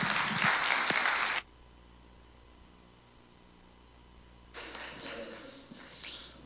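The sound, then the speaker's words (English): A church audience applauds to welcome a guest pastor with a loud burst of clapping that stops abruptly after about a second and a half. A low, quiet hum follows, then a softer rustling noise returns near the end. “So church family, will you do me a favor? Put your hands together, give a warm Hill Country welcome to my great friend, Pastor Chad Harold.”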